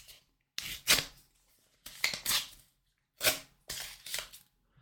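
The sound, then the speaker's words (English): An envelope is torn open in a few quick bursts of crisp paper ripping and rustling, separated by brief silent pauses, fairly quiet overall. “let's open up this envelope just to be sure I get this right.”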